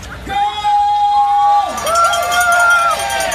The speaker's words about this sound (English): And shortly after that, the race was underway.